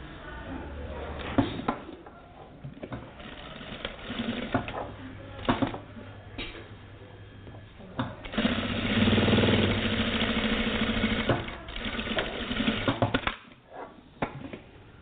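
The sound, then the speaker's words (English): A sewing machine stitches a seam joining two pieces of fabric, its motor giving a steady whirring hum in stretches, with one longer, louder run in the second half, broken by brief pauses and thumps. “There's my two pieces of fabric. I'm going to put them together, make a seam.”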